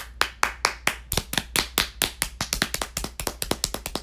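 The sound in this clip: One person clapping their hands alone: many sharp, crisp claps in a fairly steady, even rhythm, with no voices.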